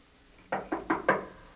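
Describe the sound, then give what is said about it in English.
Four sharp knocks on a door, evenly spaced and fairly loud, standing alone against quiet. “Somebody got a knock, though. Oh, we got a man to knock. Who is that?”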